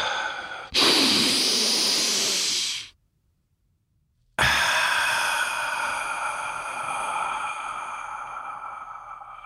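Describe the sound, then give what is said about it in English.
One deep human breath: a loud, airy inhale lasting about two seconds, a brief silent hold, then a long, gradually fading exhale. “let's take a deep breath”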